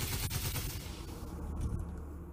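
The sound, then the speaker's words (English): Rapid gunfire from the old P4 weapon in the video game Star Citizen: a loud, steady stream of sharp shots in quick succession, with no talk over it. “So this is the old P4. It kind of falls a bit flat. You're not really getting that, like, oomph that you want. But you've probably shot this a million times.”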